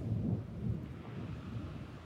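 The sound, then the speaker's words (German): Thunder rumbles through a thunderstorm: a deep, continuous low roll that stays steady and fairly loud for the full two seconds, with no voices. “Natürlich gewittert, wenn wir hier aufnehmen.”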